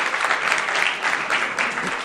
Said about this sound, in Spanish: pues nos vamos a animarlas así, con un aplauso